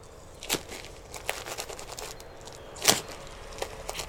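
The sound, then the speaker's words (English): Crinkling of a thick nighttime disposable diaper as its tapes are fastened: faint, scattered plastic crackles with a few sharper clicks over a low steady background, no talking. “Get you all taped in so we can get back to the party.”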